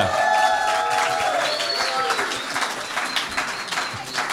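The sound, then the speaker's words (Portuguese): Audience applause for a song at an alternative song festival: clapping mixed with cheering voices and a whistle, loud at first and easing slightly. “Canção número 1. Não sabe, não responde. Com segunda, não vou mais a representar Portugal. Uma salva de palmas.”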